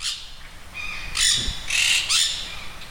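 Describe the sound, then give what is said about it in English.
Parrots call in several harsh, raspy squawks, loud and bright, separated by short pauses, with quieter chirps before them. “What is this? The parrots are here.”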